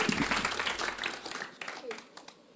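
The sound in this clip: Audience applause welcoming a speaker at a community event: a dense burst of clapping that thins and fades over a couple of seconds, with voices beginning to talk as it dies away.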